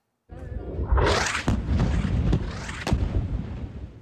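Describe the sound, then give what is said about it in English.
An Israeli strike on a desalination plant in northern Gaza City sets off a deep, rumbling explosion. It begins abruptly and rolls on loudly, with a few sharper cracks cutting through the sustained boom. “This is the moment an attack targeted a desalination plant in a neighborhood in northern Gaza City. A mosque was also hit.”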